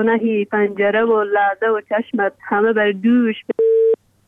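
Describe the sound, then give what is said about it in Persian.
A woman's voice recites over a phone line, then the call cuts off into a short, flat busy-tone beep, followed by the start of another beep. “قطع شد.”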